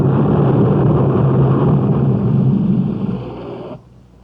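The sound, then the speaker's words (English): Deep, continuous rumbling of the ground shaking as a mountain explodes, loud and dense with low roaring energy and a steady hiss above, dying away abruptly near the end. “No, it's too loud. The ground's beginning to shake. It feels like the whole mountain's exploding.”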